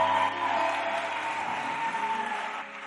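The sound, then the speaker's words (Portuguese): An audience claps hands, a fairly quiet, dense and continuous patter with a faint sustained tone beneath, thinning slightly at the end. “Ok, bata bem as palmas. Bata bem as palmas. Bata bem as palmas.”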